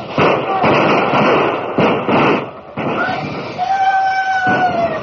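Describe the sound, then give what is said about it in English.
A volley of gunfire as defenders open fire on attackers charging toward the front gates: dense, crackling bursts of shots in quick succession, with a high whistling tone later on. “You see? They didn't expect that volley.”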